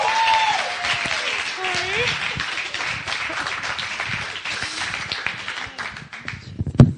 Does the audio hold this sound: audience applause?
yes